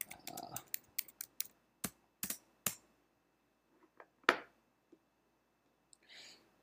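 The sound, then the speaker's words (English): Typing on a computer keyboard: a quick, irregular run of crisp clicks, then a few scattered taps with gaps between them. The keystrokes are quiet and heard alone. “Oh my god, I forgot to type in Browns trade.”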